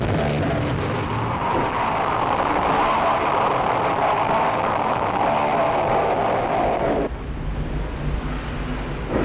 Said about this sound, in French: Je reviens dans le vacarme. Il y a du trafic.